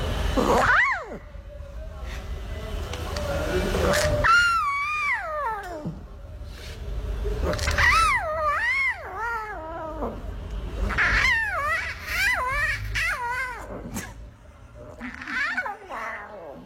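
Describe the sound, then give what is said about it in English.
Lion cub calling with many high, meow-like mewls and wails, each rising and falling in pitch, coming in a loose series of insistent cries at a fairly loud level. “We are playing you the sounds of a lion cub”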